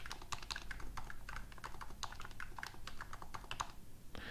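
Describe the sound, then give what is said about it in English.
A keyboard fitted with polymer rings under its keys is typed on quickly, giving many soft, muffled clicks in an uneven, steady stream with no pauses. “I think it's a polymer of some sort. So this is actually about as good as a keyboard can possibly sound.”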